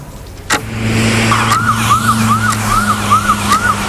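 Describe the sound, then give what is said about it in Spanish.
An ambulance siren wails while the vehicle drives, heard from inside the ambulance as a medical team carries a liver toward an airport. The siren cycles up and down many times over a steady engine drone and road noise. “Ahora mismo estamos en una ambulancia. Hay un equipo médico que viaja con un hígado en una nevera especial hacia el aeropuerto.”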